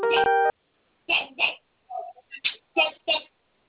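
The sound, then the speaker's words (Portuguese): A phone keypad tone from pressing zero on an automated credit-approval call: one steady beep lasting about half a second, followed by a person speaking. “Para concluir e receber mais detalhes, aperte o zero.”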